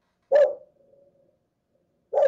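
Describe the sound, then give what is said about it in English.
A dog barking in a third-floor home: two loud, sharp barks separated by nearly two seconds of near silence. “Gotta excuse me, my dog's up here barking at”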